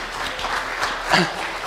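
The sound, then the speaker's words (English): Applause from a church audience at the end of a service, a brief dense wash of clapping that holds at a steady level, with a short voice rising over it near the middle. “So let's give a big round of applause for that, everybody.”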